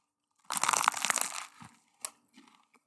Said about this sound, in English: Okay, I'm gonna take a bite right now.